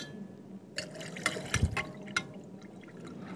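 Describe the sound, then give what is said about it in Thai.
Water poured into a mixture, heard as a faint liquid pour with a few soft splashy bursts over a low, steady background. “เดี๋ยวเราก็จะเติม ส่วนที่2 ส่วนที่2ลงไปค่ะ น้ำ อาจารย์เติมลงมาได้เลยค่ะ”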